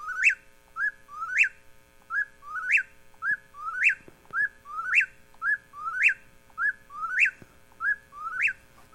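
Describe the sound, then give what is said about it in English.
A whippoorwill calls over and over, each whistled phrase rising sharply and ending on an emphatic high note. The calls repeat in a steady rhythm, roughly one per second, clear against a quiet background. “And that's where our whippoorwills are today. I do hear people talk about hearing them throughout the evening in that central, west central part of the state. We still have them here, but it's not what it was in the past. Let's hear one.”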